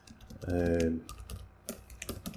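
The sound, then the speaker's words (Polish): Fingers type a Skype password on a computer keyboard, giving a string of quick, faint key clicks. A brief voiced tone sounds near the start. “Tak, to co słyszeliście, to jest wpisywanie hasła do Skype'a, tajnego bardzo oczywiście.”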